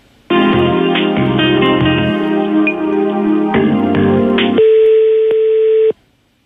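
Telephone line tones play while a call is transferred to a service: loud, steady electronic tones that shift pitch in a few steps, then cut off abruptly.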